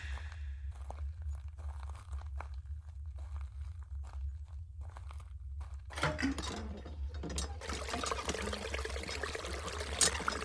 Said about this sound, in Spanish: ataqué la bomba de agua de lluvia que había al fondo de la cocina.